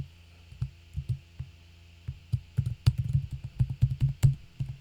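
Typing on a computer keyboard: sparse, irregular key clicks at first, then a denser run of quick taps, each a soft, dull click with no voices.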